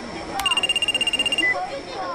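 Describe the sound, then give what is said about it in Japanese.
A mobile phone rings with a bright, rapidly pulsing electronic ringtone that repeats steadily for about a second and then cuts off. “夏子の携帯鳴ってない？ あ、お母さんからだ。”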